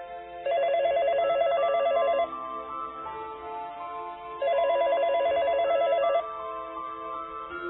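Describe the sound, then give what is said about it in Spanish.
A telephone bell rings in the early hours, waking a sleeper. Two long bursts of rapid, shrill ringing, each just under two seconds, are separated by a pause, with a low steady background underneath. “De madrugada, el timbre del teléfono despertó a Alberto.”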